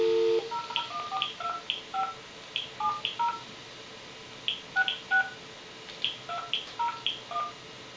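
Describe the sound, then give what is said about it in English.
Telephone keypad tones dial into a unified messaging voicemail system: many short, clear dual-tone beeps come in quick irregular bursts, separated by brief pauses, over a low steady hum. “And now we'll switch over to the telephone system and try and access that message. Okay, let's dial into the unified messaging system.”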